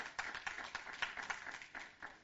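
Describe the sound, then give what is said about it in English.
An audience claps their hands in praise during a church service, a faint, steady run of many rhythmic claps that keeps an even beat throughout. “Would you give the Lord a hand clap for his great grace?”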